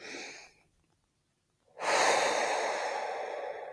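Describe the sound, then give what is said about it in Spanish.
A deep breath during a calm guided relaxation, a soft breathy sound, then a short silence, then one long, loud airy breath that holds steady and slowly fades. “Entonces, respira profundo.”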